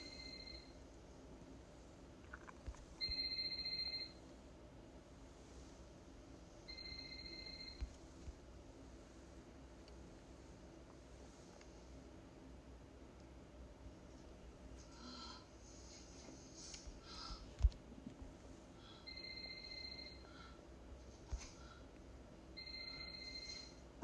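A mobile phone rings faintly, its thin electronic ring returning in several short bursts spread across a low, steady background hum.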